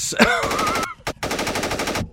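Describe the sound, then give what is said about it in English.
A loud shotgun blast opens with a sharp bang and runs into a fast rattling burst, then a brief gap and a second rattling stretch. “That's a shotgun.”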